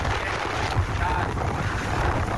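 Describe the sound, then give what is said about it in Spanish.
Strong wind on the road near Bonao roars steadily across the microphone, a dense, continuous rushing and buffeting noise with no break. “por Bonao, mucho viento, mucho viento. Así que precaución”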